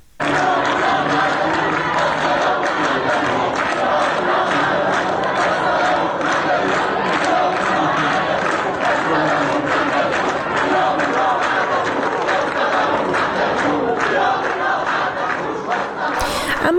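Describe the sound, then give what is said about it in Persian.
Protesting university students chant slogans together at a campus sit-in, a dense, loud crowd roar of many voices that holds steady and unbroken for the whole stretch. “دانشکده علوم انسانی دانشگاه سراسری عراق هم در محوطه این دانشگاه دست به تحصن زدن، شعارهای اعتراضی سر دادن در روز یکشنبه. با هم صدای دانشجویان دانشگاه آزاد عراق رو بشنویم.”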